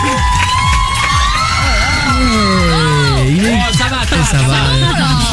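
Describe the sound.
People shouting and cheering in a radio studio, a continuous loud burst of excited whoops and screams with wavering high-pitched voices throughout.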